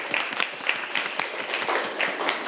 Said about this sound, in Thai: อ๋อเก่งมากเลยปรบมือให้เพื่อนนักเรียนนะครับ